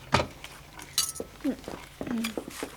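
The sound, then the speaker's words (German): A small plate is taken out of a kitchen cupboard with a few light clinks and clatters of crockery, and a voice is heard faintly among the sounds. “Nimm dir einen kleinen Teller aus dem Küchenschrank.”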